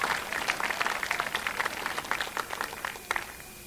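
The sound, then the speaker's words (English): Applause from a festival audience after a performing pair, with dense, crisp claps that hold steady for several seconds before thinning slightly at the end. “Isn't she lovely? Let's give them both another hand.”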